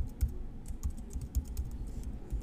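Keys clatter on a computer keyboard as a password is typed, giving many quick, faint clicks in an uneven rhythm with short pauses between bursts of keystrokes.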